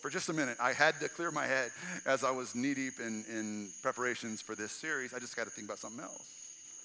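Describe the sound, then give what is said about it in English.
Steady high chirring of summer-night crickets, grasshoppers, cicadas and frogs, heard outdoors under the stars, runs faintly and continuously beneath constant talk. “every single sound you're hearing right now, is basically some guy posting his profile. Every single sound that you can hear, every cricket, every grasshopper, every cicada, every frog,”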